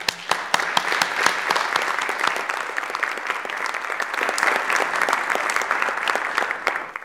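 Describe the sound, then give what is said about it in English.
Applause welcoming a guest speaker at a lecture on ecosystem collapse and environmental disasters: a few sharp claps at the start swell into steady, crowded clapping that keeps an even level for about seven seconds. “Without any further ado, I'd like you to please join me in giving Lynn a warm welcome.”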